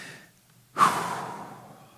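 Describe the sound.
Deep breath taken by people at a prayer gathering: one soft, airy rush of breath that swells suddenly and then slowly fades, quiet overall.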